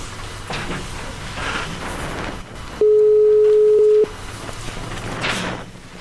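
A telephone line rings on an outgoing call: one steady, low, monotone ring tone lasting about a second, standing clear above faint background noise.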